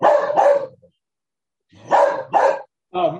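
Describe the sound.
A dog barks five times: two quick barks, a pause, another pair, then one more bark, each loud and gruff with silence between.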